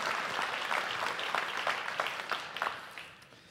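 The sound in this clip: Applause from a church audience welcoming a guest preacher: a dense, steady wash of many hands clapping at once, holding an even level before thinning and fading toward the end.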